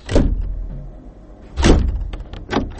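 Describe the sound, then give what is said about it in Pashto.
A door is opened in answer to a knock, with a few sharp thumping, clattering bursts separated by quieter gaps. “یوه شیبه صبر وکړه، ور خلاصوم.”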